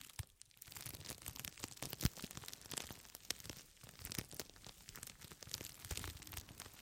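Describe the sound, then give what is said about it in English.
Soft, continuous crinkly rustling made by repeated movements, full of tiny crackles with occasional sharper crunches, fairly faint and steady throughout. “Such a nice sound, rustling sound, like a gentle lullaby to lull you to sleep.”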